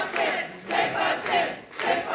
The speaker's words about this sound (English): Celebrations at a party for Quebec separatists. They're watching election results come in on October 5th, 2026.